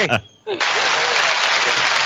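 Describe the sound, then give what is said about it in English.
Audience applause breaks out after a brief voice, then continues as a dense, steady wash of clapping that stays loud to the end. “Round of applause right there.”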